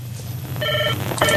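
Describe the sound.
Telephone ringing for an incoming listener call on a community radio phone-in, heard as two bursts of bright electronic ringing separated by a short gap over a steady low hum, with no voices.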